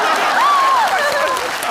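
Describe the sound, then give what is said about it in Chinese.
Audience applause after a dance performance, a dense, even wash of clapping that stays steady throughout, with a voice briefly rising above it. “鼓掌。”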